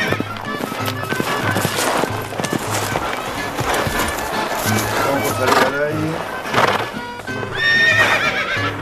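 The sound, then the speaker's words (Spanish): Horses neigh repeatedly over busy clip-clopping hooves, with several shrill whinnies rising out of a dense, loud, continuous clatter of hoofbeats. “aten los caballos al palenque, hemos llegado a caballito.”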